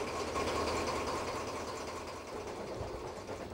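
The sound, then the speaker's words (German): Old diesel engine rumbling in an aged narrow-gauge locomotive at Pyrgos, Greece, on the line to Olympia: a steady, loud, dense drone with a deep low throb that holds evenly throughout. “Dann geht er zu seiner betagten Lok, in der ein alter Diesel wummert.”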